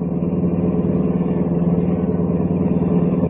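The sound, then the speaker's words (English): Steady engine rumble of a car driving through town toward a manufacturing district, an even low drone with no voices. “I kept driving downtown to the west side into the manufacturing district.”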